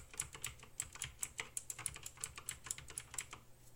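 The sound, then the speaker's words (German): Typing on a computer keyboard: a rapid, irregular run of many crisp key clicks, fairly quiet and heard on its own with no voices. “Vergleich Tastatur.”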